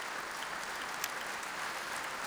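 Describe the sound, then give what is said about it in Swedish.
Faint, even applause from a concert audience at Berwaldhallen for the Swedish Radio Symphony Orchestra, a soft continuous patter of many hands with one brief sharper clap near the middle. “Och här i Berwaldhallen applåderas nu Sveriges Radio Symfoniorkester kväll under ledning av den brittiske dirigenten Nicholas Cullen.”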